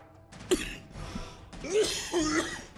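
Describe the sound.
Throat clearing from a scratchy throat comes in a few short, rough bursts, with a sharp catch near the start and two longer, raspier scrapes that follow.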